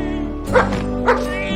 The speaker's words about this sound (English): He notices a dog barking at a cat trapped inside a stack of large feed bags.